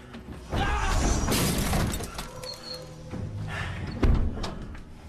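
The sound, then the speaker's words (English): A mirror is smashed as a heavy metal outer door swings shut on it: a sudden loud crash starts a sustained stretch of shattering and clattering, and a sharper heavy thud lands near the end. “Junior tries to stop the heavy metal outer door from closing, smashing the mirror in the process.”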